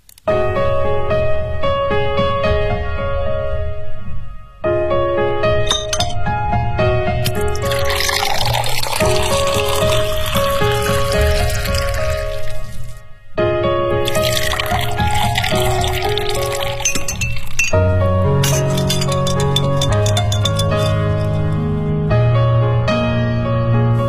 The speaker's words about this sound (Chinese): 椰子利口酒和冰块调成的，名字叫做船的赠与。